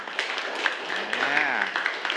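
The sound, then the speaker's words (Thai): Pupils in a Thai classroom applaud a classmate for a correct answer: soft, uneven clapping from a group of students runs throughout, with a teacher's voice speaking over it midway. “ถูกต้องยอดเยี่ยมมากๆเลยครับปรบมือให้กับเพื่อนหน่อย”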